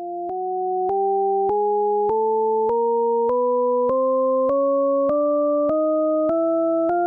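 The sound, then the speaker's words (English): An endlessly rising chromatic scale of pure, steady electronic tones. About a dozen evenly spaced steps each climb a semitone, yet the layered pitches never seem to get higher overall, played alone at an even level. “So I'm going to play you a scale, and this is a chromatic scale, which means it travels up through each of the pitches in the Western music system.”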